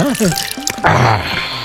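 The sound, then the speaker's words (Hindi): A stone dropped into a cooking pot of water for soup: a sudden splash followed by a lingering watery slosh and trickle, with a voice speaking just before it. “अब ये रहा पत्थर, अब इसे हांडी में डाल दो।”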